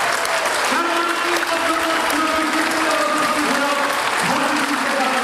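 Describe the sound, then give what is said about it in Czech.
Sustained applause fills a theatre hall as the audience greets the announcement of the year's charming personality award: dense, continuous clapping at an even loudness for the whole stretch. “Velký potlesk, velké gratulace.”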